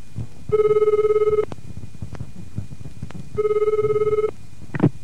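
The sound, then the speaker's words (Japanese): Electronic telephone ringing as a foreign student phones a vocational school's office: two separate bursts of rapidly pulsing, bright ring tone, each about a second long, with a quiet gap between them. “留学生が行きたい学校に電話をしています。”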